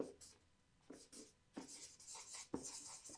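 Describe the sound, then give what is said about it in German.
Scribbling as something is written down, faint scratchy strokes in a few short bursts separated by quiet gaps. “Ich schreibe das mal hier auf.”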